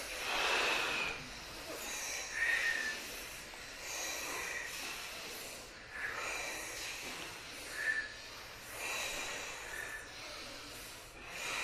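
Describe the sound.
Forceful breathing in and out during an introductory kriya breathing exercise, with a steady series of loud, hissing, snort-like inhales and exhales repeating throughout, and no talk.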